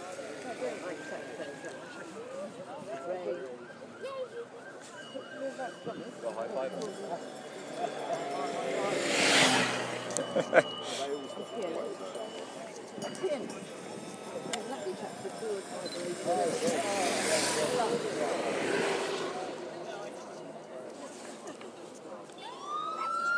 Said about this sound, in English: We've got the preceding vehicles coming through.